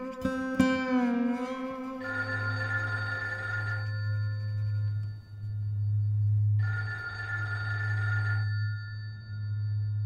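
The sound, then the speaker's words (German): A telephone rings in two long, buzzing bursts separated by a few seconds, the ringing loud and steady against a continuous low hum. “Ah, Telefon.”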